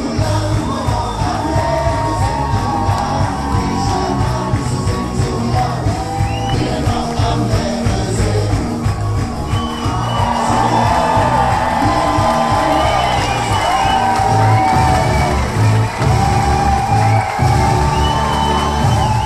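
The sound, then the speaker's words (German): Audience in a carnival festival tent cheering and singing along during a men's ballet performance, loud crowd voices and whoops over steady, rhythmic music with a pounding beat, sustained throughout. “Im Festzelt steppt der Bär. Die Zuschauer stehen auf den Stühlen und wippen in den Knien. Sie klatschen und singen mit.”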